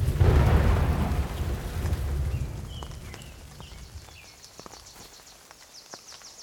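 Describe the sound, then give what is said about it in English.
A thunderstorm passing over a valley: a heavy roll of thunder opens loudly and slowly fades, leaving steady rain hissing beneath it. “I remember hearing the thunder define the far reaches of the valley as the storm passed over me, drenching me.”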